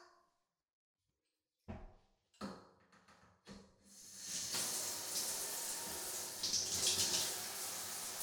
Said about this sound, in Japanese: じゃあシャンプーの前にまずはしっかりお湯ですすぐよ。